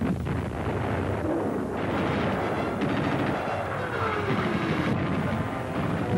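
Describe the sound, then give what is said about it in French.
German artillery batteries open fire before Stalingrad in November 1942 to halt a violent Soviet attack. A dense, continuous roar of overlapping heavy blasts and rumbling, steady and loud throughout with no pauses between the firing. “Devant Stalingrad, les batteries allemandes ouvrent le feu dans le but d'enrayer une violente attaque soviétique.”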